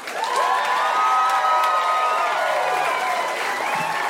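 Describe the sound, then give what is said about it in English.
Applause and cheering from a comedy show audience in Denver welcome a comedian on stage: loud, continuous clapping mixed with whoops and shrill cheers that hold steady for the whole stretch. “Let's give a big hand to Andrew Santino.”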